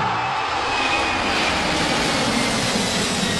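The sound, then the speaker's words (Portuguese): An airplane passing overhead makes a loud, steady rushing roar, a broad engine drone that holds nearly constant throughout. “É como você ouviu, basta você anotar quantas vezes você ouve o Avião do Estádio 97 passar em qualquer dia do Estádio 97”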